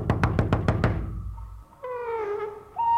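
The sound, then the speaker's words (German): Someone pounds on a door with five loud, evenly spaced heavy knocks. After a short pause, a brief voiced sound follows. “Nach Sonnenuntergang wird nicht geöffnet. Wummern hilft gar nichts.”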